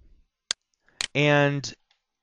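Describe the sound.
Mouse clicks in Visual Studio's Solution Explorer come as two sharp, brief clicks a half-second apart, followed by a short voiced sound.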